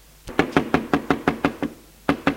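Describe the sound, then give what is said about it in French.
Knocking on a house door: a quick, steady run of sharp knocks, then a short pause and a few more knocks, loud and clear with no voices. “Un jour frappe à la maison un marchand ambulant.”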